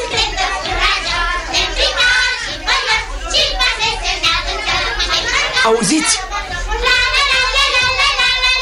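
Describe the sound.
Many neighbourhood children shout and chatter together in a loud, continuous clamour, with one voice speaking briefly among them.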